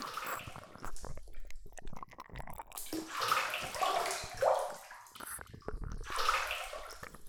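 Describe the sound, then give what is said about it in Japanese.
Faint bath water splashing and sloshing in a tub of hot water mixed with hot-spring bath powder, the soft watery movements coming in irregular bursts. “お風呂入ってくださいね。今日は草津温泉の素を入れました。”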